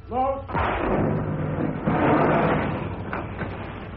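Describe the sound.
A torpedo launches from a submarine tube during an attack on a British escort: a brief voice at the start gives way to a heavy thud and a broad rushing, hissing roar that swells and carries on to the end.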